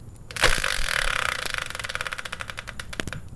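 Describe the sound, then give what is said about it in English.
A game-show style prize wheel spins with a rapid, steady run of clicking ticks after a louder opening burst, with the rattle easing a little toward the end. “let's bring in the Wheel of Fortune style spinner and find out what today's subject will be”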